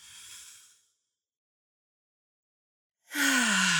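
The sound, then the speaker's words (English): Breathing in through the nose and out through the mouth during a guided breathing exercise: a soft breathy hiss fades out, a long silence follows, then a louder breath starts abruptly. “Okay, so we're going to breathe in through the nose. Hold for a few counts and out through the mouth.”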